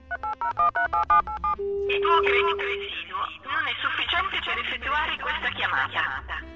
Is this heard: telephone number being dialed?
yes